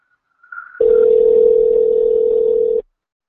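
A telephone dial tone sounds while calling someone back: a brief higher beep, then a steady, loud single-pitched hum lasting about two seconds before cutting off abruptly.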